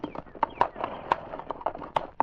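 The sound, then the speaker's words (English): A horse's hooves clip-clop as it climbs a hill trail. Many sharp, hollow knocks follow in a brisk, slightly uneven rhythm throughout. “As Constable Redman reached the top of the hill, he halted his horse”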